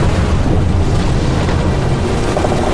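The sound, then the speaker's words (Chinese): Strong wind roars steadily across a high snowy plateau, a dense and loud rushing noise that buffets the microphone throughout. “起风了，赶紧撤。”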